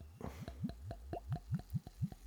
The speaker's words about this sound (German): Warte, jetzt muss ich auch mal ein bisschen gluckern hier.